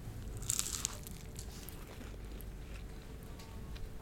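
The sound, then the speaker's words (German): A crisp bite into crunchy pastry with a red filling, made in 17th-century style, gives one short crunch near the start, then fades to a low, steady background. “Jetzt beiße ich mal rein.”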